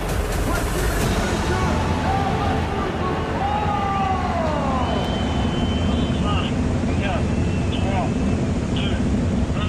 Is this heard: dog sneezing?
no